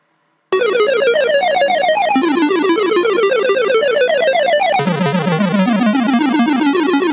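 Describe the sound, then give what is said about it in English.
A chiptune song made with RMT Tracker starts after a brief silence. Buzzy, bright electronic tones warble in rapid repeating patterns over a lower melodic line that drops in pitch near the end, loud and continuous. “I made my first song using RMT Tracker, and it's like this.”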